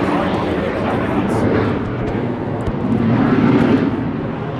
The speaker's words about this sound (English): when a twin-engine jet fighter flies by just a few hundred feet above the ground,